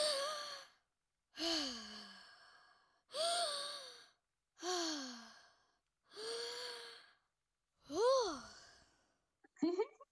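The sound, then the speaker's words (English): Gentle, settling breaths from a guided breathing exercise, done with one hand on the chest and one on the belly: six long, soft, voiced sighing exhalations at a slow, even pace, then a brief final burst. “And take three nice, settling, gentle breaths.”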